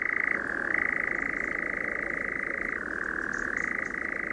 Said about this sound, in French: Et donc, c'est un chant d'oiseau extrêmement rare. De quel oiseau Il s'appelle l'engoulevent parce qu'il se nourrit en vol.